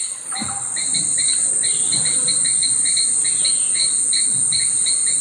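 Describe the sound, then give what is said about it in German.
A nature soundscape on Kangaroo Island, Australia, is filled with insects: a steady, high-pitched cricket buzz runs throughout, joined by many rapid, repeated chirps over a faint low rumble. “Da hatten wir auch so eine Soundkulisse, die uns der Känguru-Guide von Kangaroo Island geschickt hatte.”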